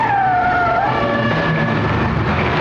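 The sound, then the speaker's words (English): A car skidding around a corner, its tires letting out a high squeal that slides downward in pitch over a loud, steady engine roar, which continues after the screech fades. “A car skids around the corner.”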